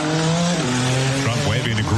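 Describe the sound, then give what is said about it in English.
Indy-style race car engines at the Freedom 250 Grand Prix in the nation's capital give a loud, high, whining roar that shifts in pitch as the cars pass, under a talking voice. “At the Freedom 250 Grand Prix, the first Indy-style race ever held in the nation's capital”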